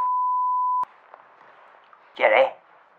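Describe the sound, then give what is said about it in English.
A phone gives a single steady electronic beep lasting just under a second, followed by near quiet and then a brief voice. “Oh. That's the phone again.”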